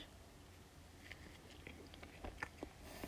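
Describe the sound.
Biting and chewing on an egg salad sandwich with soft bread: a few soft, moist crunches and mouth sounds cluster near the end, faint against a quiet background with no talking.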